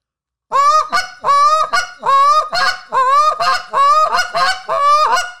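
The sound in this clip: Goose honking imitated in a hiccup-style call made alone: about six paired calls, each a longer nasal honk followed by a short clipped note, loud and evenly rhythmic, with no talk.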